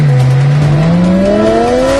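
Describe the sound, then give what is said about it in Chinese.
A car engine revving and roaring, a loud continuous drone whose pitch climbs steadily as the engine speeds up. “一辆完美的车应该发出什么样动听的声音？急速马力的声浪轰鸣，”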